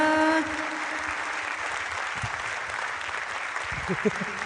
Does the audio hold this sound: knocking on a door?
no